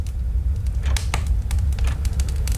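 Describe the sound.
A wood fire crackles inside a stove in a village farmhouse, giving many sharp, irregular pops and snaps over a steady low rumble.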